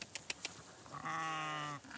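A Shropshire sheep gives a single wavering, drawn-out bleat, fairly faint, preceded by a few soft clicks.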